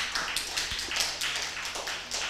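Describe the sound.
An audience claps along in rhythm, bright sharp claps landing on a steady beat about twice a second. The clapping stays fairly loud and even from start to end.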